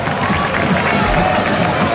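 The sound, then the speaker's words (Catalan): A football stadium crowd applauds as Lewandowski comes out to warm up during a Barça match. A brief, steady wash of crowd noise and clapping. “Han sortit a escalfar-se Lewandowski, que rep aquests aplaudiments, i també Oriol Romeu.”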